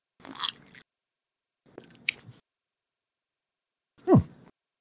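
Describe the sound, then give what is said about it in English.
Sips of bourbon mixed with Coke: three short, wet mouth sounds of sipping and swallowing, separated by pauses, the last one fuller and deeper, with no talk. “So, I just mix it with some Coke to see what it's going to flavor, what it's going to taste like. Let's see what it is.”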